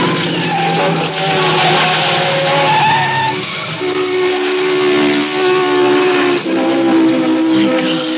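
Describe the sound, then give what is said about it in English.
Tires screech in a long, loud, harsh squeal as a car skids and swerves after a tire blowout. The tonal whine wavers slightly in pitch and holds without a break for about eight seconds. “The tire blew out. Oh, we're lucky. No one hit us.”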